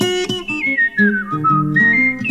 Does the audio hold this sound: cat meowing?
no